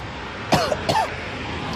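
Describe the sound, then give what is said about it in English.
Coughing from someone choking on honey roasted nuts stuck in the throat: two short, harsh coughs close together, each with a voiced edge, standing out over a steady low background hiss. “I got food in my throat. That wasn't a regular call. I got food in my throat.”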